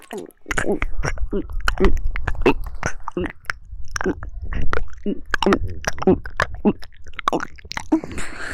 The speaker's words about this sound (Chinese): 我正在吃。